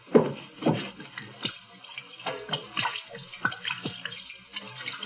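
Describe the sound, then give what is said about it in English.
Liquid splashing as gin is poured over hands to wash them, heard as a series of faint, irregular wet splashes and trickles with no voices. “Hate to waste this good gin washing my hands.”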